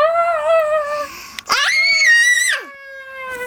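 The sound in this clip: A voice imitates frightened children screaming as they flee a giant's garden. Loud, shrill, sustained screams come with a sharp break in the middle; the second scream is higher and drops away at its end.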